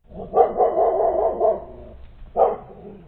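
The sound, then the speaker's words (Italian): A dog barks plaintively, a long, drawn-out, wailing bark followed after a short pause by a single briefer one, loud and alone with no other sound. “e abbaiò lamentosamente 3 volte.”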